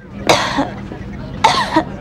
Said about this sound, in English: Oh, dear. How long have you had that cough?